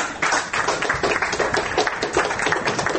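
Dense applause from people in a Belarusian courtroom after the court left a case against the newspaper Nasha Niva unconsidered; steady, crowded clapping runs through the whole clip without a break.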